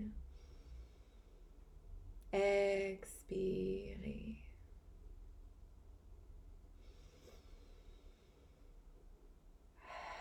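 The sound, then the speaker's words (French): Slow breaths drawn in during a French guided mindfulness practice, marked by a louder, breathy burst early on and then a few soft, airy inhalations spaced apart over a quiet background. “Donc, pour 3 respirations. Inspirez.”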